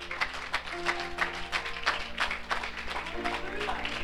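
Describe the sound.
Applause from a church audience welcoming guests: dense, steady clapping fills the whole stretch at an even level, with sustained low tones running beneath it.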